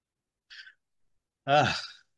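A faint, short inhalation is followed by a louder voiced sigh that trails off, with silence around both breaths.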